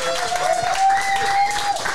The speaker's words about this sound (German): Erstmal einen riesengroßen Applaus.